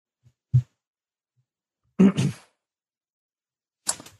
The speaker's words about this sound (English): He clears his throat.